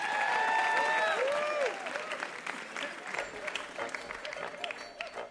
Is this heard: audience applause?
yes